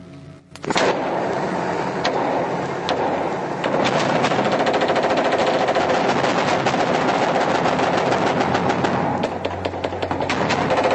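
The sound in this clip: Gunfire shot into a building: a loud, dense, unbroken barrage of rapid automatic shots that starts abruptly after a brief quieter moment and runs for several seconds, with no voices.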